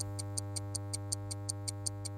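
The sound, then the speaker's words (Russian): A clock ticks as a countdown effect during a quiz round. It gives about a dozen quick, evenly spaced high ticks, roughly five per second, over a continuous low steady hum. “Время тик-так.”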